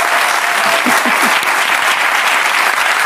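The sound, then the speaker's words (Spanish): Applause from a studio audience welcoming two guests on a Spanish talk show: loud, continuous clapping with a few brief voices rising through it. “Un aplauso para esta gente”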